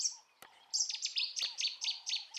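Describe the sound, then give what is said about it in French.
Nightingales sing outside in faint, rapid, high-pitched chirps, repeated in quick bursts with short gaps between them. “Quelque part, dehors, les rossignols chantaient.”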